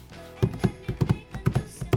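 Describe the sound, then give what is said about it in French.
Footsteps from a foley artist walking a pair of shoes on a wooden board: many dull, knocking steps land in a steady walking rhythm, each a short low thud with a sharper tap. “ce que vous entendez là, c'est une paire de chaussures. C'est un bruiteur sur une planche.”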